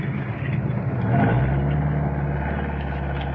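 An old 1949 car engine rumbling, its low tone swelling to a louder, steady drone as the car gets moving.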